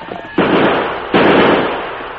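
Two loud gunshots from a single gun fired during a getaway in a western drama, each a sharp crack followed by a long hissing decay, spaced under a second apart.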